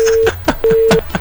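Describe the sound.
Telephone disconnect tone after a call is abruptly cut off: two steady, level beeps, each roughly a third of a second long, separated by brief bursts of voices speaking between them.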